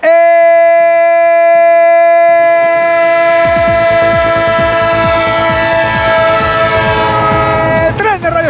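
Train horn sounding as a sustained, steady multi-tone chord, joined partway through by loud, rumbling clatter of rail wheels that continues under the horn to the end.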